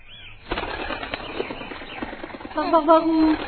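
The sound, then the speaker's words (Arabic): Flapping wings of a pigeon flying back to its nest, a quick flutter of beats under a narrating voice, with the sound growing fuller toward the end. “طارت الحمامة وعادت إلى عشها.”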